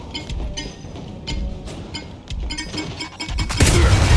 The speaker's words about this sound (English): Bomb's about to blow!